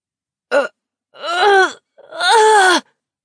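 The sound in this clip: A human voice imitating a monstrous ogre's wail, a cry in the quiet night: three loud groaning moans, one short and then two longer drawn-out ones, alone with no other sound.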